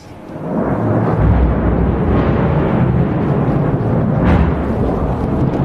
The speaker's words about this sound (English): And a short time later, we heard this massive strike.